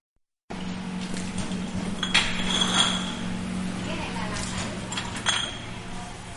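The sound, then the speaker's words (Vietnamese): Glass bottles of rice liquor clink while being labelled at a private factory in Ben Tre province, Vietnam; a few sharp clinks stand out over steady background noise, with a voice talking. “Hàng trăm chai rượu đế đang được dán nhãn tại nhà máy tư nhân Phú Lễ ở tỉnh Bến Tre.”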